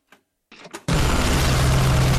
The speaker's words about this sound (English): An aeroplane sings over the camp, begins dropping bombs which rip through the ground and buildings.